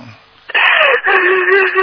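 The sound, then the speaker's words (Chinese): A person crying while apologizing to their master, a loud sustained wailing sob with a strained, tonal quality that breaks briefly partway through and then continues. “好了好了，不要哭了啊。不要哭，不要哭。”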